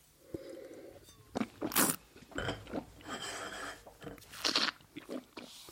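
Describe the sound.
Someone chews a pear-flavoured gummy bear: a series of irregular, moist crunching and biting sounds in short bursts, fairly quiet, with no talk over them.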